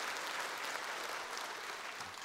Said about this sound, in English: So can we give all of those that are watching a hand and welcome them?